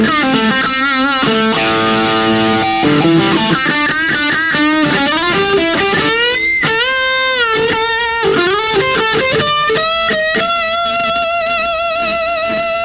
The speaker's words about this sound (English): And then let me go into the distortion mode. This is the humbucker bridge pickup.